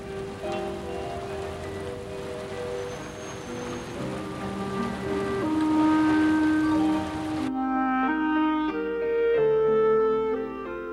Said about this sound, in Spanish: No te preocupes, seguramente pronto dejará de llover.